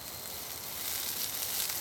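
Yakisoba frying on a charcoal grill at a barbecue gives a faint, continuous sizzle, an even hiss that stays steady throughout.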